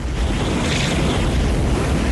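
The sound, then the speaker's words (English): Roaring, rushing flame blasts from a dragon's nostril in a steady, dense whoosh, loud and unbroken throughout with no voices. “The dragon holds one nostril and shoots flame from the other.”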